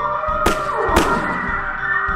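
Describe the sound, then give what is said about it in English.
Gunshots fired across a yard near a corral: two sharp, loud cracks about half a second apart, heard over a steady humming tonal background. “Shots began to crack.”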